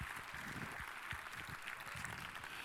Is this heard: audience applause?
yes